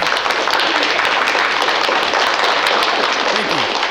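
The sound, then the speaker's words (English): Dense, continuous applause from an audience welcoming a guest, loud and steady from start to finish. “Give it up for the worm.”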